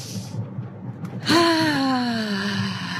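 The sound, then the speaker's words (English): A deep breath drawn in during a guided meditation, followed by a long, voiced exhale that slowly falls in pitch. “Take a deep breath.”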